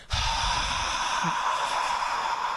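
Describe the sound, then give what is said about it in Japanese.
A long, forceful exhale to empty the lungs completely during a breathing exercise, a steady breathy hiss at even loudness lasting almost the whole clip. “まず吐き切る。じゃあ吐いてみましょう。”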